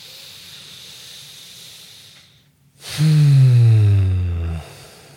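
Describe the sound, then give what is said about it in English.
A deep breath taken on cue. A soft, steady hiss and a brief silence lead into a loud, drawn-out breath with a low, sighing voiced tone that dips slightly in pitch before cutting off. “let's all take another deep breath to that.”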